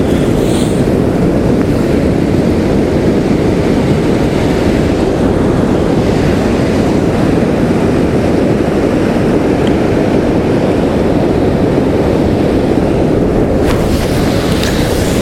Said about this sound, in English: I think the tide may be coming in, not going out.